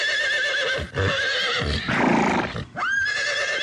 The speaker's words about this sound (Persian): و این بخشی تقلید است که شما همین اسب رو باید تقلید میکنید اول بخش رو میشنویم